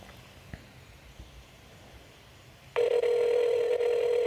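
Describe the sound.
An outgoing telephone call rings back with a steady electronic tone. The tone starts abruptly after near silence and holds loud and unbroken to the end.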